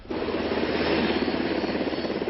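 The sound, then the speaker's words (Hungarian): Two Brazilian military helicopters, a Black Hawk and a Super Puma, fly out from Noronha island over the Atlantic. Their loud, steady rotor roar has a fast beating pulse throughout, with no voices. “Békés küldetésre indult a brazil haderő két helikoptere Noronha-szigetről. A Black Hawk és a Super Puma az Atlanti-óceán fölé repült”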